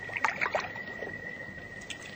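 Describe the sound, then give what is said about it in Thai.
A heavenly stream of water flowing down from the sky, heard as a soft, trickling wash with a few splashy bursts near the start and a thin steady tone underneath. “แล้วสายธารที่ไหลลงมาจากฟากฟ้านั่นคืออะไรกัน นั่นคือสายธารหนึ่งในจำนวนนับไม่ถ้วนที่มาจากคงคาสวรรค์เพื่อหล่อเลี้ยงสระบัวทั้งหลาย”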